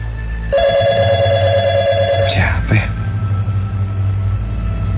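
An office telephone on a parallel line rings with a steady electronic tone for about two seconds over a low background hum, then gives way to a couple of brief warbling chirps.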